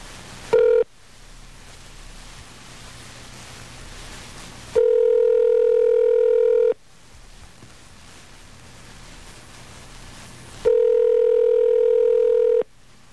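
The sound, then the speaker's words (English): Telephone line tones during a call to a community corrections office in Long Beach, California, after dialing 9 for an outside line: a brief tone, then two steady tones of about two seconds each, separated by quiet line hiss. “I'm supposed to dial 9, though, aren't I? Yeah, okay. I have the phone number for the Long Beach CCM”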